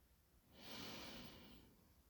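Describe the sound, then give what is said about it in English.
A deep breath is exhaled during a yoga session: one long, soft, breathy release that swells and then slowly fades, heard alone and faint. “Inhale. Exhale one more time.”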